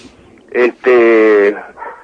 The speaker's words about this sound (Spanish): Disculpa a los perros que sí. Hay un coro de perros a mi espalda